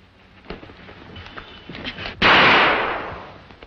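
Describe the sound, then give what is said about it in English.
A single sharp pistol gunshot cracks out loudly and decays over about a second and a half, after a few faint small knocks. “I'll shoot!”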